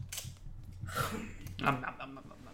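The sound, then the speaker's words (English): Crinkling of a candy wrapper being unwrapped, coming in a few short, soft, crackly bursts that are fairly faint. “I'm unwrapping this candy.”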